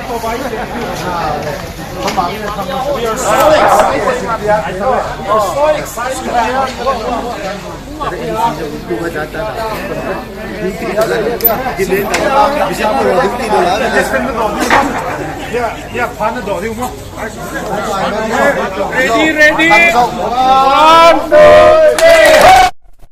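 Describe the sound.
A gathered crowd of Simte people chatters, shouts and cheers while praising God for Bibles arriving in their community. The dense, swelling babble of many voices runs continuously, growing louder near the end before cutting off abruptly.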